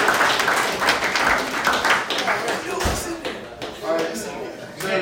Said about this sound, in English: For employees of the month. All right, give all a round of applause, guys.